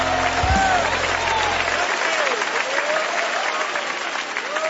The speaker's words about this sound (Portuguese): Palmas para Jesus, palmas para Jesus. Louvado seja Deus. Pode louvar a Deus com as palmas, aleluia.